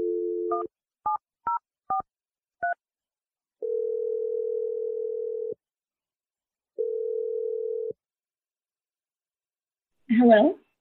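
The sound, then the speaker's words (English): Telephone keypad tones as a phone number is dialed: a brief low tone, then a few quick dual-tone beeps, followed by two long steady ringing tones and a short voice at the end. “I'm dialing her number right now.”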